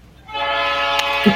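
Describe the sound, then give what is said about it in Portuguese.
A train horn sounds one loud, sustained blast of stacked harmonic tones, steady for about a second, with no talk over it. “Espera aí que o trem buzinou aqui”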